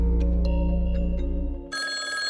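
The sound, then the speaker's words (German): A telephone rings with an electronic, pulsing tone that repeats for under two seconds, then shifts abruptly to a brighter, higher tone. “Da ruft jemand an.”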